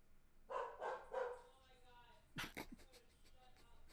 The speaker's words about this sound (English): Dog says no. The dog says no.